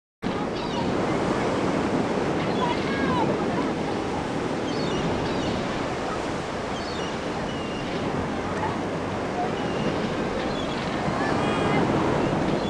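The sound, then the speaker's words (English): Strong wind at a beach, a loud continuous roaring rush mixed with crashing surf, buffeting steadily from start to finish. “But the wind was too strong. I flew my kite instead.”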